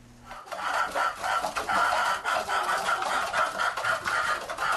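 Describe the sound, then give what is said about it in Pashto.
About a hundred chickens cluck inside an old mud house in a village south of Khost, a busy, continuous chorus of overlapping clucks that begins after a brief quiet moment and carries on steadily. “کابو سل چرګان د خوست مرکز جنوب ته د ګربز ولسوالۍ د شیخانو کلی په هغه پخوانی خټین کور کې ساتل کیږي”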